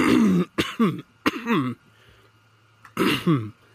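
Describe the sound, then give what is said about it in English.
A person clears their throat in a few separate rough, raspy bursts with short pauses between them. Some bursts carry a voiced, hummed tone, and a longer gap comes before the last one. “My oh my, my throat needed clearing.”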